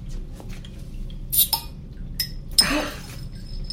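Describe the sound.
Glass bottles clink as a beer bottle is taken from a crate and opened without an opener: a few faint, scattered glassy taps, then a brief, sharper burst.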